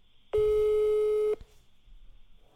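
A telephone ringback tone sounds while someone calls their mother: a single loud, steady beep lasting about a second, then a quiet line hiss.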